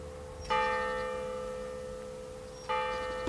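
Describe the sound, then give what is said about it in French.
Church bells in Corinth, struck twice about two seconds apart. Each strike rings out loudly with a rich, sustained tone that fades slowly, and no talk is heard. “Elles ont une belle vue sur la plaine, sur les cloches de Corinth, qu'on pourra peut-être entendre s'il n'y a pas l'hélicoptère qui passe.”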